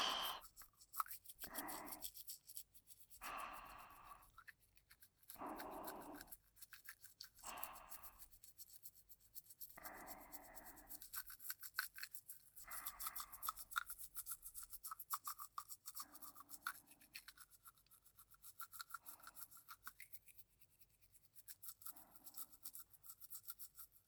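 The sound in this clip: A toothbrush scrubs back and forth across the middle teeth in quick, rhythmic strokes, many soft bristly bursts in a row, fairly faint and with no voices.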